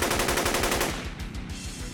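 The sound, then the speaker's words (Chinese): AK-47 rifle gunfire erupts in rapid automatic bursts, many sharp shots in quick succession, loudest at first and then continuing at a slightly lower level. “茉莉迫于无奈，只能开枪。”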